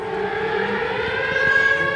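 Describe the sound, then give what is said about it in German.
Air raid sirens wail in a steady, sustained drone during an alert, their layered tones holding fairly loud and even over a low background rumble. “Kurz darauf heulen tatsächlich die Sirenen, Luftalarm.”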